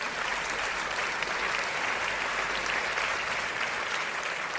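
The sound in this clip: Audience applause welcomes a guest onto a talk show: a dense, even wash of many hands clapping, holding steady and loud from start to finish.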